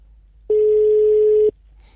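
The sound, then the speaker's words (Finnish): A single telephone ringing tone sounds while a studio phone number is called: one steady, mid-pitched tone lasting about a second, with near silence before and after. “Katsotaan, vastaisikohan Jussi puhelimeen. Voi olla, että ei tähän numeroon vastaa. Tämä on tämä meidän studion numero, mutta katsotaan.”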